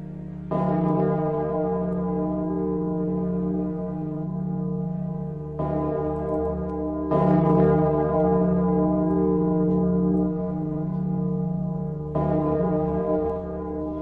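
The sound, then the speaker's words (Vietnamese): A small bronze bell, about the size of a teacup, rings out with a deep, booming, deafening tone. A few slow strikes each swell into a long, sustained, harmonic ring with no voices. “Chỉ là một cái tiếng chuông nhỏ, thế nhưng dần dần nó trầm bổng, vang lên kinh khủng, đình tai nhức óc.”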